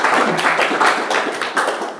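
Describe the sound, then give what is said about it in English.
Audience clapping during a talk about sound, a dense, steady patter of many hands that stays moderately loud with small ripples throughout. “Well, let's have a clap.”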